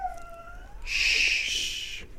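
A dog locked behind a closed office door lets out a thin, high whine that slides downward and fades. A long breathy shushing hiss follows and lasts just over a second.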